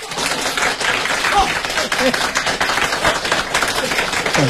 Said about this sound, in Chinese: 大家给他鼓鼓掌，喝。